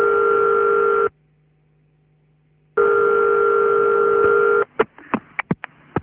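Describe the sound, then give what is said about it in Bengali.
A telephone dial tone hums steadily, drops out for a moment and returns, then gives way to a quick series of short beeps as a number is dialed. No one speaks. “তার মায়ের নাম্বারে dial করল।”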